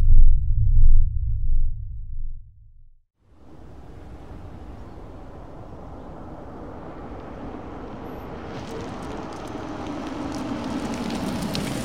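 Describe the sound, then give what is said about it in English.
A spaceship's retro rockets firing: a deep rumble cuts out, then a sustained hissing roar starts and builds steadily, growing brighter toward the end. “Captain, they're firing retros. Gravitational spin slowing.”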